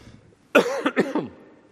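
A preacher coughs once during a sermon. The cough is short and harsh, breaking into a few rapid bursts, and is heard alone against quiet.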